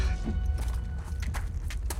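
Cautious footsteps as a man with a shotgun steps slowly forward behind a truck in a parking lot, a few soft, spaced steps over a steady low rumble.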